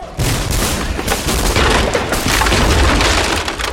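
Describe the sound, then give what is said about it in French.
A detonation bursts at a street barricade: a loud, dense crackling roar of gunfire that holds steady through the whole few seconds, with no voices over it. “Une effroyable détonation éclata sur la barricade.”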